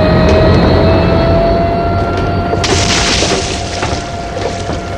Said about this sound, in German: Köpfe runter! Das Flugzeug fährt gegen uns! Achtung! Jetzt!